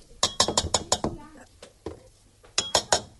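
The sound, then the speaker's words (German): Sharp clinks and knocks against a bowl as coconut flakes are folded into a thick batter with a spatula, a quick run of strokes followed by a few scattered hits, with faint voice sounds in between. “jetzt hebe ich die Kokosflocken mithilfe eines Teigschabers unter. Das wird eine dickflüssige Masse”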